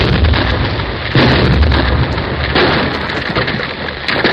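A blast explosion sets off a rockslide down a hill above a tunnel, a loud, broad, rumbling roar that swells sharply partway through and keeps churning without a break.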